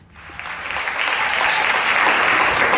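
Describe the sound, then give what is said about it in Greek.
A live audience applauds, with dense clapping that swells up quickly from the start and continues strong and even throughout. “Με αποθεώνει το κοινό, όπως ακούτε.”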